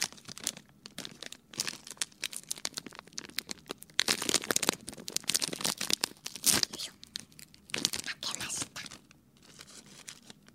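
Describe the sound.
A plastic snack bag is torn open and crinkled in close ASMR style, with many crisp, irregular crackling and rustling bursts over about ten seconds.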